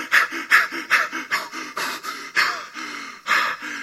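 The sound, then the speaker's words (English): Heavy panting from someone winded after running, acted out by a speaker: many quick, gasping breaths in a steady, rhythmic in-and-out pattern, loud and with no talking. “Philip is winded at this point.”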